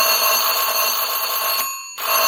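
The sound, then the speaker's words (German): A doorbell rings insistently with a loud, shrill, continuous electric ring. It cuts off briefly and then starts again. “Plötzlich klingelte es Sturm.”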